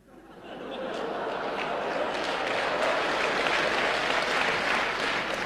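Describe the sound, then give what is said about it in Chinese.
An audience bursts into applause that swells over the first second, then holds as steady, dense clapping until the end. “我说什么了你们就鼓掌”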